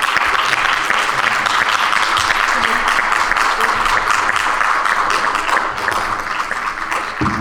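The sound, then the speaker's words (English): Loud, sustained applause from an audience at a civic panel event, dense and even clapping for about seven seconds that eases slightly near the end. “Can we please give a round of applause to the”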